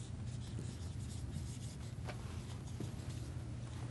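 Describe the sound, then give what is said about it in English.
Steady, faint scratching of writing runs throughout as someone writes, with a constant low hum in the background. “Let me write. So just say coupled.”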